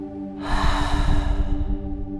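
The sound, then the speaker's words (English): A slow exhale after a held breath during a muscle tension-release relaxation exercise: one long, breathy, airy release lasting over a second, swelling quickly and then fading gently. “Inhale and tense up the leg. Hold the breath in. And then exhale,”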